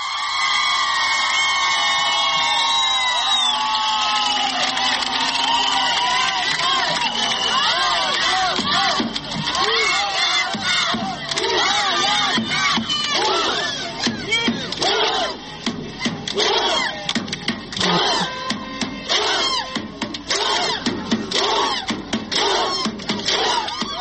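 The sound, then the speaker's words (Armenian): A crowd in Republic Square whistles, cheers and applauds. Many shrill, wavering whistles rise over dense clapping and shouting, and the whole roar stays loud and continuous for more than twenty seconds. “Դուք այժմ լսում եք, թե ինչ է կատարվում Հանրապետության հրապարակում, քաղաքացիները սուլում են, ուրախանում են, ծափահարում են։”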